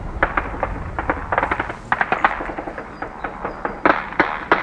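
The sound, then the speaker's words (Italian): Kalashnikov rifle gunfire mixed with mortar and artillery fire on the front line in Ukraine, with Russian troops 500 metres away: many sharp, irregular cracks and thuds, some in quick bursts, over a constant low rumble. “I russi sono a 500 metri, quindi sparano anche con i Kalashnikov. Quelli che state sentendo sono colpi di Kalashnikov, oltre ai mortai e all'artiglieria.”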